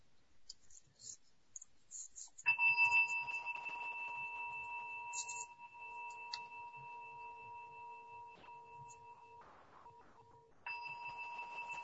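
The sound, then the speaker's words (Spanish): A small bell is struck, its bright, steady ringing tone lingering and slowly fading before it is struck a second time near the end. “Y ahora voy a hacer sonar una campanita y permanezcan con este sonido hasta que ya no puedan escucharlo más.”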